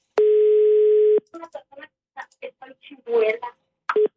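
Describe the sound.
An unanswered telephone call: a steady, long ringing tone that stops, then people talking over the line, then the tone starts again briefly at the end.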